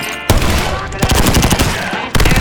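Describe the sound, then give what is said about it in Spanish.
Rapid automatic gunfire erupts in an ambush firefight, with loud dense crackling bursts that keep going almost without pause and sharp fresh volleys striking near the start, middle and end. “¿Hay disparos? ¡Sí!”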